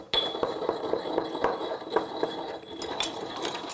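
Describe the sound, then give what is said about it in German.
Coarse unrefined salt crushed in a mortar: many sharp, gritty clicks and crunching scrapes in an irregular rhythm, fairly quiet and continuous, with no voices. “Und das gebe ich jetzt dann in einen Mörser, um es ein bisschen klein zu machen.”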